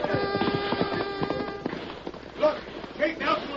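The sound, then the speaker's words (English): Galloping hooves of many riders, a cavalry approaching, sound as a rapid rhythmic clatter over sustained musical tones, then fade into softer, uneven thuds while a voice speaks. “Listen, what's that I hear? Sounds like riders”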